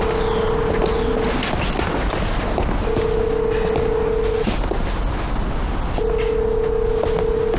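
Ringback tone of a phone call that does not get through: three long, steady mid-pitched beeps separated by pauses, heard over a constant rushing, wind-like rumble with no voices.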